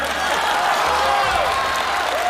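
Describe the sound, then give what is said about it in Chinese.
Audience applause answers a host's call to clap. Many hands make a dense, even patter that holds at steady loudness for the whole stretch. “朋友们鼓鼓掌吧！”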